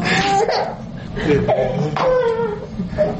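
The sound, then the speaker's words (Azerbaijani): A small child crying at home, with uneven whimpers and several wailing sobs that rise and fall in pitch over a few seconds. “Ağlama ağlama. Kişi ağlayar, ne ağlayırsan?”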